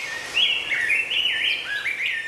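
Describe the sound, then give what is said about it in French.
Morning birdsong: a bright, warbling run of quick high notes that rise and fall in short connected phrases, clear and alone. “Oui, je voulais vous donner des oiseaux au réveil. Ah, c'est si bon de se réveiller avec des gazouillis, non?”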